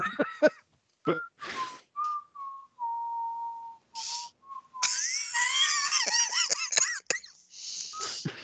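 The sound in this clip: A person idly whistling out of boredom: a few short chirps, then long, slowly wavering held notes that drift in pitch, with bursts of hissy noise in the background.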